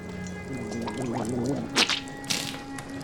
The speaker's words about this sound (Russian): Есаул стоит у входа в барак, полощет рот, сплевывая воду на улицу.